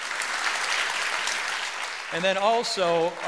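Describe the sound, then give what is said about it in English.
A church audience claps hands for the Lord, a dense round of clapping lasting about two seconds before a man's voice starts talking over the dying applause. “But I want to ask you just to give the Lord a great hand clap for that.”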